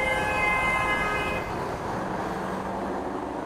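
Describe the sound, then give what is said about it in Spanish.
A car horn honks in city traffic with one sustained, harmonic blast lasting about a second and a half. It gives way to a steady wash of road traffic noise. “Un bocinazo me atrapa.”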